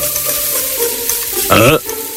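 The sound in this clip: Food sizzles and fries in an iron wok, a steady, loud crackling hiss that runs throughout without talk.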